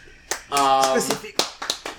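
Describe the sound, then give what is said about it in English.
Hand claps from one person, a few sharp, irregular smacks cutting in around someone talking, fairly loud and quick. “Why are you clapping? Why are you clapping?”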